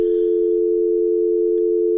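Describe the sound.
A steady telephone tone follows a dropped call, one unbroken mid-pitched hum holding level for the full two seconds, with only a faint, brief hiss at the start.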